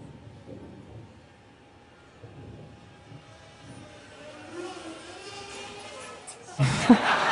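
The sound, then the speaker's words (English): Mechanical humming builds gradually as a fixed-wing delivery drone is snagged out of the sky and dropped onto an actively inflated cushion, ending in an abrupt, loud burst of noise. “We snag the plane out of the sky and then we gently plop it onto an actively inflated cushion. This is basically a combination of an aircraft carrier and a bouncy castle.”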